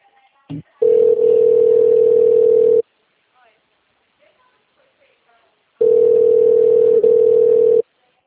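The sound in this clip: Telephone line tones while a new call is placed after a dropped one: two long, steady mid-pitched tones of about two seconds each, separated by a few seconds of silence, with a faint click before the first.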